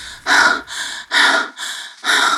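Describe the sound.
Heavy, rapid breathing of a man who has just stopped running and bent over in a dark corner of a cistern: five harsh breaths, three loud gasping ones alternating with two softer ones, with no talk.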